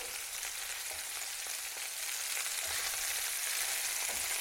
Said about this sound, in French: Faut bien saisir la viande.